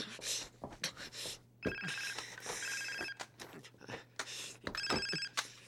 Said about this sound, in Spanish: ¡Ay, mi teléfono!